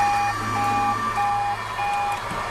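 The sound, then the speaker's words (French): Armoured vehicles and trucks arriving at a forward military base, with a reversing alarm sounding a steady series of four long, high beeps over a continuous low engine rumble. “la base opérationnelle avancée de Gossi s'est remplie de véhicules en provenance de Gao. 150 blindés et camions”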